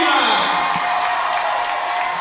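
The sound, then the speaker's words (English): Crowd cheering at a high school basketball game, a WPIAL third-place matchup, as the fans are revved up: a loud, steady roar of many voices, with commentators talking over it. “As he always does, Jim Reynolds getting the crowd revved up for this WPIAL third place matchup. Nice crowd here this evening, Bob, for the Kanemak contingent.”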